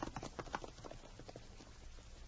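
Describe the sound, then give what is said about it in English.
Horse hooves clip-clop in a steady run of many beats as a rider heads back toward town on horseback. The hoofbeats are loudest at the start and continue evenly to the end. “The girl rode back to town, left her horse at the livery stable”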